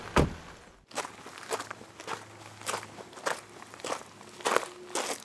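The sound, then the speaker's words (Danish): Footsteps of a police officer walking into a house: a steady series of firm, slightly crunchy steps at an even walking pace, moderately loud with no talk. “Landbetjenten ankommer hurtigt til huset og går ind.”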